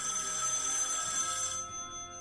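A telephone rings with a sustained, bright electronic trill that carries steadily, then cuts off before the end, leaving only quiet background noise.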